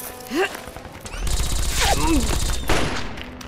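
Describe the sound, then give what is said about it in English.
Gunfire exchange in a shootout at a house: a dense, sustained burst of rapid shots roars for over a second, with shouting voices around it. “He's shooting back! Open fire! He's firing from inside the house.”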